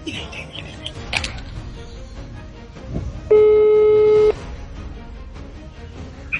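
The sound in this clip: A phone call ringing out on the line: one steady, loud electronic ring tone lasts about a second, standing out from a low background hiss.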